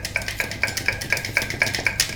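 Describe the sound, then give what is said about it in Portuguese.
Egg whites beaten by hand with a whisk in a bowl, without a mixer, making a steady even rhythm of light clinking strokes, roughly four per second, with no voices. “Deixa que eu bato as claras, já que não temos batedeira.”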